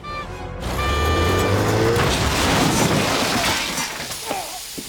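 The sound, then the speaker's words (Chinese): A car rams into people: a rising engine roar gives way to a loud, sustained crash with shattering debris that slowly thins out near the end. “大聪明机智的脑瓜一转，想开车撞死他们，没想到有个人把他想到一块儿去了。”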